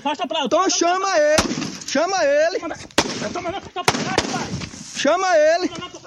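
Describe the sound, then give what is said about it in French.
Gunshots fired into the air by a guard at a future cotton plantation in Brazil's Cerrado, as a cattle herder is driven off land: a few sharp, loud cracks cut through a man's raised, shouting voice. “des tirs en l'air de la part du gardien d'une future plantation.”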